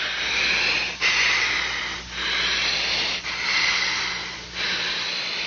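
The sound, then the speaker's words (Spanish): Deep, steady breathing through a mask that a doctor has placed over a patient's face: a continuous hissing airflow that swells and ebbs in several long, even cycles, with brief dips between breaths. “Y quiero que respires bien profundo.”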